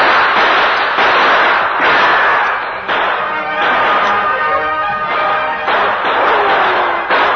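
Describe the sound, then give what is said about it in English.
Gunshots traded in a radio-drama shootout between lawmen and two outlaws taking cover among trees at twilight: a rapid run of many loud, sharp cracks, each followed by a ringing tail, coming back to back with no talk. “the Lone Ranger and Tonto exchanged shots with the two remaining outlaws”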